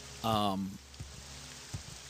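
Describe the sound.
Rain falling in a video game, a soft, steady hiss with a few faint low thuds, while a voice speaks briefly at the start.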